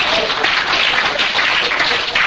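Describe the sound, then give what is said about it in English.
Loud, dense clapping from a church audience, a continuous busy rattle of many hands that stays even throughout. “Clap your hand to Jesus.”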